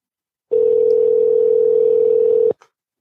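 A telephone ringback tone on an unanswered prank call to the United States: one steady, unbroken hum-like tone held for about two seconds, then a short click as it cuts off.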